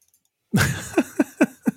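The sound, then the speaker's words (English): Computer mouse clicks on a card in a digital card game: a brief louder burst followed by four short, crisp clicks in quick succession, alone without talk. “Let me click on it, see if I can make it bigger.”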